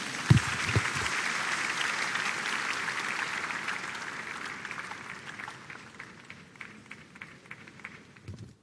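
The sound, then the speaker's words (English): A church audience applauds with a dense burst of clapping that starts strong and slowly thins and fades toward the end. “Please give the Lord a big hand.”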